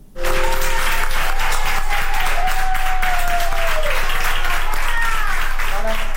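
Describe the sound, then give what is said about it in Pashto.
Doctors and nurses at a hospital in Plasencia, Spain, applaud a 104-year-old woman who recovered from Covid-19: loud, dense, continuous clapping from a group, sustained evenly throughout, with a voice audible over it. “د اسپانیا په پلاسمینا مادرید کې ډاکټرانو او نرسانو هغې مېرمنې ته چکچکی کوي چې تر سلو کلونو تیر ده او له کورونا رغېدلې ده.”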